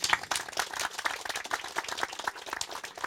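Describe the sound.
Audience applause greets a contestant at a Finnish summer event: a dense, steady patter of many hand claps that continues without a break, with no voices over it.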